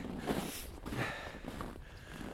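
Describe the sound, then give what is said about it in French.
Footsteps on hard Arctic snow, walked without snowshoes while climbing a large hill: a few steady, crunching steps of moderate loudness with soft scuffs between them. “Mais ici, dans l'Arctique, justement, à cause que la neige est dure, il est inutile d'avoir de raquettes, parce qu'on marche littéralement sur la neige sans en avoir besoin.”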